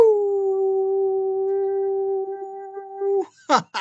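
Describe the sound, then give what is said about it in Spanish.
A long, steady howl holds one even, clear pitch for about three seconds, then breaks off into a few short, rough noisy bursts. “después de un aullido”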